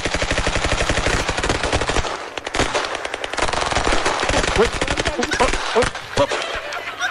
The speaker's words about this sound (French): Très joli tir groupé de l'équipe américaine de ICE qui, à défaut d'avoir touché la cible